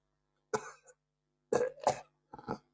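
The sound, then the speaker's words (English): A few harsh, phlegmy coughs from someone choking on their own phlegm. They come in short, quiet bursts separated by pauses, with no talking. “I'm choking on my freaking own phlegm at the moment.”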